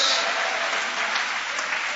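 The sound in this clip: A church audience applauds during a service, giving a thick wash of steady clapping that holds at an even, fairly loud level for about two seconds.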